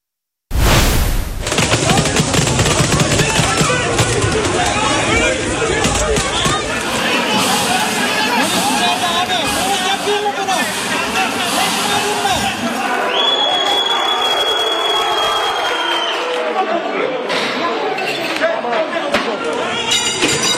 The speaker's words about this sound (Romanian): Poliția a folosit gaze lacrimogene și gloanțe de cauciuc pentru a pătrunde cu forța în sediul principalului partid de opoziție din Turcia.